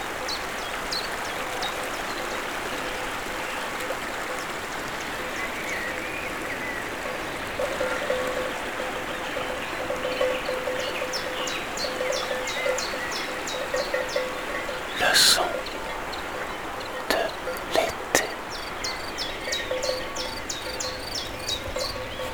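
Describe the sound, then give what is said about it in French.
Steady rushing water from a stream and waterfall runs throughout, with high repeated chirps of birds above it and a few sharp clanks of cowbells in the second half. “Les oiseaux, la sonaille, la verdure, le ruisseau et la cascade.”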